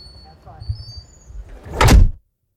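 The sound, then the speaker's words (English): Heavy doors of an anechoic chamber slam shut with a loud, broad whooshing thud after a stretch of low rumbling and faint shuffling, leaving abrupt dead silence afterwards. “you're going to shut the doors and leave me in here for a little while”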